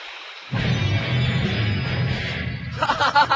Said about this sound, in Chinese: 穿咗个窿啊！啲海水入紧嚟啊！